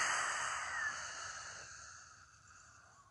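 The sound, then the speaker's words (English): A forceful breath-of-fire exhale pushed from the belly through an open mouth with a softened throat: one long, breathy rush of air that starts strong and gradually fades over about three seconds, with no talking. “Open the mouth as you soften the back of the throat and let out that breath of fire from your belly.”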